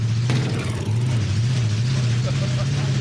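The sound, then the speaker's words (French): Vehicle engine accelerating with a slight carburetion fault, a steady low droning hum that climbs gently in pitch, loud and continuous while a person talks over it. “Bon, là, je vais accélérer.”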